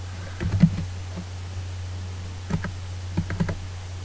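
Typing on a computer keyboard: two short clusters of sharp key clicks, one early and one near the end, separated by a quiet stretch over a steady low hum.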